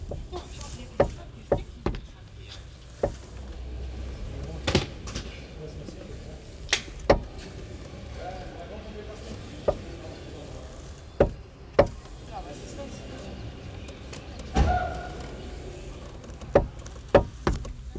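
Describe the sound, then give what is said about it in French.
Someone handles and plays with a car door, making many sharp knocks and clicks. The hits come at irregular intervals over a low, faint background, and a few are louder thumps. “Je joue avec la porte de la voiture.”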